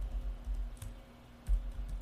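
Typing on a computer keyboard, with soft, irregular keystroke clicks, faint and steady, over a low hum.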